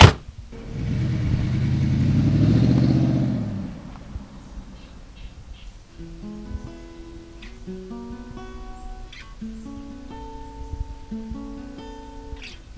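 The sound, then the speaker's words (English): A car drives off along Route 172 beside the Saginaw River. Its engine roar swells and holds for about three seconds, then fades, leaving quieter scattered tonal chirps. “I got out and she drove off”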